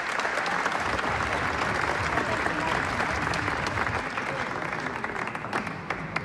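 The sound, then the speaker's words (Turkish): Enthusiastic audience applause at a Turkish folk music concert as a singer is sent off, many hands clapping in a loud, dense, continuous roar that eases slightly toward the end. “sevgili Mehmet Demirtaş'ı coşkuyla ve gönülden alkışlarla uğurluyoruz”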